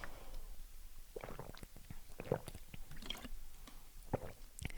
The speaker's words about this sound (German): Also ja, ich muss mal was trinken.